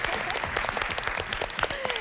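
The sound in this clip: Studio audience applause during the final round of a Turkish game show: a dense, steady wash of many hands clapping that holds at an even, fairly loud level throughout.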